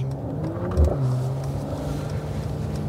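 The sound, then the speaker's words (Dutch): A Mercedes-AMG E53 Coupé drives along with a steady, low engine drone and road rumble, swelling briefly louder before settling back into an even hum. “En we gaan rijden. De rijimpressie. Ja, Wouter ging lekker spelen met de Mercedes AMG E53 Coupé.”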